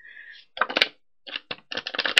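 Hand-shuffling a deck of square cards: a few bursts of crisp, papery clicks and slaps separated by short pauses, opening with a faint, steady high tone.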